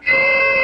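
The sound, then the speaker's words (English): A toy whistle sounds both of its tones at once in one brief, shrill blast: a steady, piercing two-note chord held evenly for under a second. “But the Captain Clutch whistle with both frequencies sounds like this.”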